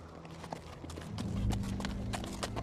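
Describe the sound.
Horses' hooves clop slowly across an icy bridge, with many uneven hoof strikes ringing out at a moderate level.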